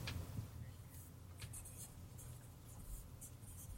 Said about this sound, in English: I'm in the process of writing it down.